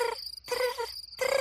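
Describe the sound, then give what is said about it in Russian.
Grasshopper chirping on a summer day: a few buzzing, rasping bursts of moderate loudness, separated by short pauses, with no voices. “Дедушка, а это кузнечик стрекочет?”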